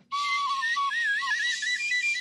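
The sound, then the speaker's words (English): A whistle sounds in one sustained, breathy blast of about two seconds. Its tone holds steady at first, then jumps higher and wavers before cutting off. “I got to find my whistle because these jokes are fucking amazing. Ah, here we go.”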